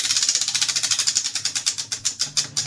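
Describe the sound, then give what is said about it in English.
A prize wheel is spun, giving a rapid train of crisp ratcheting clicks that gradually slow and space out toward the end. “Okay, I do have the wheel to spin here for you if you want to get some free items.”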